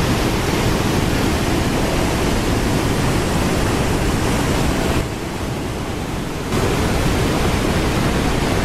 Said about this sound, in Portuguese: Deixa eu mostrar para vocês o que que são muitas águas, o barulho de muitas águas. Olha só.